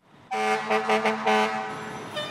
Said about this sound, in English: Two trucks just returned from a call and are backing into the station.